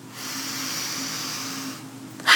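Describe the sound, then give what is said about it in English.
A single long, deep breath taken during a guided grounding exercise, heard as a steady airy hiss that lasts most of the moment, followed by a short, louder burst at the end. “So let's just take 3 deep breaths.”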